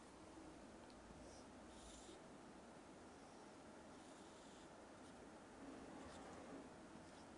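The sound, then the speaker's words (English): Pen scratching across a graph as a line is drawn, a faint, continuous dry rasp of strokes with no pauses or talk. “Okay, let's put this on a graph. I'll draw on the graph.”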